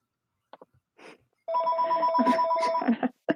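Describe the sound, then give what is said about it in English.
A house telephone rings with a bright, sustained electronic tone. A few soft knocks come just before it, and the ring then holds steadily and loudly without speech. “you can hear my house phone going off in the background”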